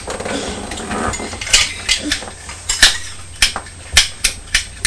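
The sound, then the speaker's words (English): A lid on a carriage is repeatedly opened and shut, giving many sharp clacks and knocks in an irregular rhythm over a faint background hiss. “Opening and closing the lid on the carriage.”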